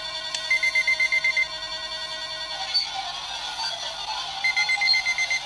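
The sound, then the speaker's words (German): An electronic alarm clock going off in rapid, high beeping bursts. One run of beeps plays, then a pause, then a second run, all over a steady background hum. “Dann mach ich einfach meinen Wecker an.”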